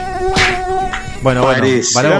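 Mosquitoes buzzing: a continuous, whining drone rich in harmonics, steady at first and then wavering in pitch during the second half, heard alone without talk.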